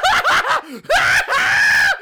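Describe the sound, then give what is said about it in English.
A voice imitates a person screaming in pain, like a horror-game victim having her intestines pulled out while alive: a few loud, strained, wailing cries with pitch bends, broken by short gaps. “She should be screaming her fucking head off”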